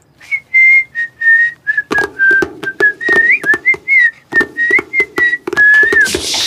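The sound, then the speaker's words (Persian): Whistling from a person imitating a drawn-out whistle: a string of many short, high whistled notes, some wavering or sliding upward, alternates with sharp clicking knocks throughout. “مثل همینه که گفتی، صدای سوت بود، کشدار.”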